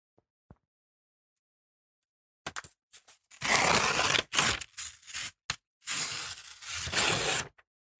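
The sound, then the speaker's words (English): A paper envelope being torn open: a couple of faint taps in near silence, then a few loud, long, rasping rips with short pauses between them. “And I'm just going to open the said envelope, Duncan.”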